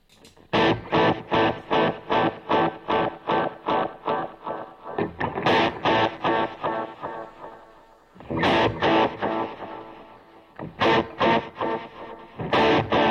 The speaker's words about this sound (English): let me change the echo slightly. The echo should be not as